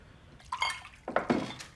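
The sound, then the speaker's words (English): Whiskey being poured out: short bursts of liquid splashing mixed with light glassy clinks, in two quick groups. “He pours out the whiskey.”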